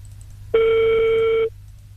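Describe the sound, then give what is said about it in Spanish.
A telephone call ringing before voicemail picks up: one steady, buzzing ring tone lasting about a second, heard alone over a faint low hum. “¿Cuántas veces tiene que sonar hasta que te dé contestador?”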